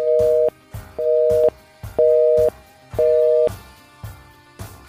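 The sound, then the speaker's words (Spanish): Four evenly spaced telephone tones from an incoming call, each a clear mid-pitched beep of about half a second, repeating once a second over a steady low rhythmic thump. “Oh my god, otra llamada. Really?”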